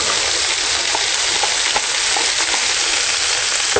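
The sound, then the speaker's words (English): Mushrooms sizzle as they fry in olive oil in a pot, a steady, dense crackle and hiss that holds even throughout, with no voices. “In another pot over here, I'm working on the sauce for Napolitana. Again, dabbling some olive oil. You then may add the mushrooms.”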